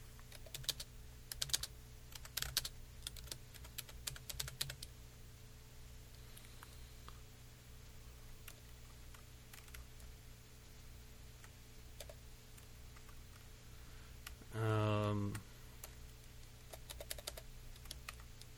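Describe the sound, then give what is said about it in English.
Typing on a computer keyboard: faint, irregular clusters of quiet clicks in the first few seconds, then a long stretch of near-silence broken by one brief, louder burst near the end. “Hang on a second, let me get it typed in here.”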